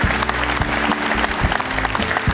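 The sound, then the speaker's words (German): An audience at a football talk show applauds a club's sports director with a loud, continuous patter of clapping and occasional sharper claps standing out. A low steady tone runs underneath. “Seine Premiere, erstmal Applaus für den Sportdirektor hier vom Hamburger Sportverein.”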